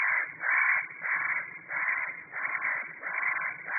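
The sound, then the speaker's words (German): Harsh, rasping crow-like calls of a spotted nutcracker, a songbird despite its voice, repeat in a steady series of loud, grating bursts with short gaps between them. “Und auch wenn es sich nicht so anhört, der Tannenhäher gehört zu den Singvögeln.”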